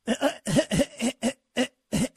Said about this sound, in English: Oh, I was choking there for a second.